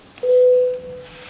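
An electronic tone sounds a call to vote during a parliament session: a single steady mid-pitched beep lasting about half a second, then trailing off into a fainter continuation of the same note.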